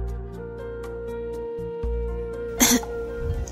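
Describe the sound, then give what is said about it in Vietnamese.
Throat clearing in two short rasping bursts over a soft, steady music bed, the first louder and the second fainter just after. “Ta hắng giọng hai tiếng, ngồi lui về phía sau một chút, đáp:”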